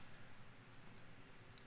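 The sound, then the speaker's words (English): A single sharp computer mouse click, made while clicking a link, stands out against near silence, followed a little later by a fainter second click. “I'm going to click on that link real quick.”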